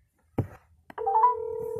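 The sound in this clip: A telephone line tone as a call is placed back: a couple of soft handling bumps, then a steady two-pitched tone that holds to the end.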